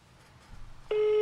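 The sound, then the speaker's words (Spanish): A telephone call tone sounds as a dropped call is redialed: after a second of faint low hiss, a loud, steady, buzzy tone with a fixed pitch starts abruptly and holds unchanged to the end. “Hagamos la llamada nuevamente, no hay ningún problema. Me encanta ese tono, por cierto.”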